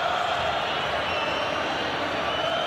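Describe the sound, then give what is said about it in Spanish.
Independiente football fans erupting in the stadium, a thick, continuous crowd roar that stays at a steady, unbroken level from start to finish. “Bueno, explotó el público del rojo. Explota el público del rojo.”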